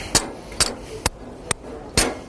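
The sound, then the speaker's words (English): A big hammer strikes a ball-launching machine five times, each blow a sharp, loud impact, spaced roughly half a second apart over steady background noise. “And when all else fails, hit it with a big hammer.”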